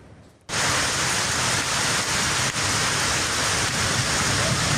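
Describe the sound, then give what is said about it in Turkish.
Heavy rain from a downpour in Turkey's Black Sea region, in Gümüşhane, where streams overflowed. A loud, steady, dense hiss starts abruptly after a quieter half second and continues unbroken. “yurt genelinde sıcaklıklar artarken Karadeniz bölgesinde şiddetli yağmur ve dolu etkili oldu.”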